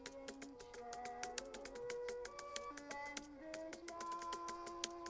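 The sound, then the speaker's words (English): Typing on a computer keyboard: many quick, irregular clicks run steadily throughout at a fairly low level. “types at his computer”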